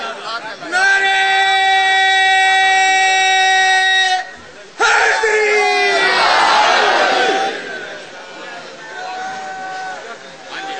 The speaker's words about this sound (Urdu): دونوں ہاتھ بلند کر کے پوری طاقت کے ساتھ, حیدری قوت کے ساتھ, نعرہ حیدری, یہ نعرہ حیدری جشن کا نعرہ.